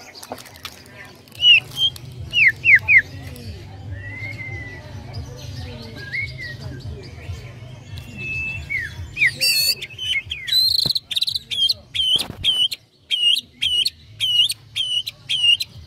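A canary sings a varied song of whistles and quick trills, ending in a long run of sharp, evenly spaced chirps repeated many times; the song is loud and clear over a low background hum.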